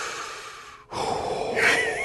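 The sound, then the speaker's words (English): A voice imitating deep, nervous breathing while watching a tense football play from the field: two long, heavy, breathy rushes of air with a short break between them. “how deep we were breathing at that. We were both breathing at that time.”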